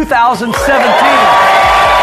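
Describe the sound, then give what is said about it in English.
A crowd cheers and whoops at the EntreLeadership Summit 2017. Loud, rising and falling shouts and hollers overlap in a sustained, excited roar with voices mixed in. “You got a great crowd. Great crowd as you can hear and see.”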